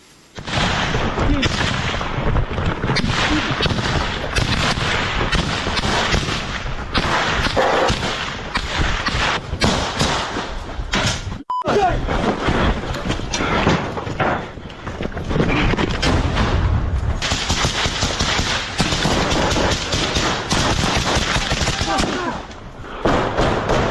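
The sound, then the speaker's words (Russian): Small-arms gunfire in a firefight in Kupiansk, fought by special operations soldiers: many sharp, loud cracks and rapid bursts run nearly throughout, with voices talking at times. “Также покажем вам кадры изнутри Купянска, которые дадут понимание, как выглядит оборона города сегодня. Это стрелковый бой, который ведут бойцы 8-го полка сил специальных операций.”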